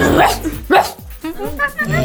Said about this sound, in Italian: Questo è il cane.